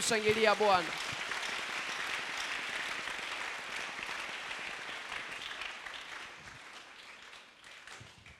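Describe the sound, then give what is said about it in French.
A church audience applauds and acclaims during a sermon. A loud voiced cry rings out at the start, then many hands clap in a dense, crackling patter that gradually thins and quiets toward the end. “Tu peux acclamer le Seigneur.”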